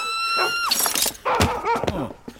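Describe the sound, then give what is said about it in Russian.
A window pane is smashed with a shovel in a film scene. A high tone drops away into a loud burst of shattering glass, followed by a second heavy crash and scattered clattering. “Алёша хватает под окном лопату, разбивает стекло и впрыгивает в окно.”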